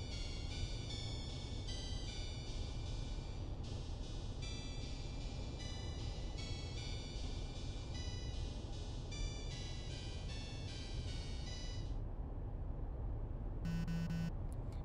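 A phone rings with an incoming call. A faint, repeating electronic ringtone pattern plays over a steady low hum, and the ringing stops shortly before the end.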